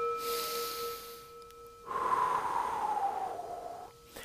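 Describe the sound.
A deep breath taken in a slow, drawn-out rush of air lasting about two seconds. It is fairly loud, follows a softer airy stretch, and sits over a steady faint hum.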